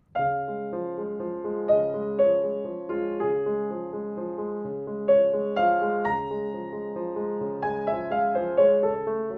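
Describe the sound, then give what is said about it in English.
Solo piano plays Chopin's D-flat Nocturne Op. 27 No. 2, its lyrical melody set over a steady Alberti bass of repeated broken chords. The playing is smooth and moderately soft, with gentle accents on the melody notes. “If we take the great D-flat Nocturne Opus 27, number 2, and we put an Alberti bass under it, it might sound something like this.”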